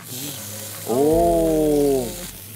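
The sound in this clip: Meat sizzles in a pan beside onions, a faint steady hiss throughout, while a drawn-out, voice-like tonal sound swells over it midway and then fades.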